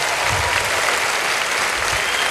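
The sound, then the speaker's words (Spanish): Applause from a church audience during a worship service: dense, steady clapping that holds at an even, fairly loud level from start to finish. “Ahora dale un aplauso con tus manos a Dios.”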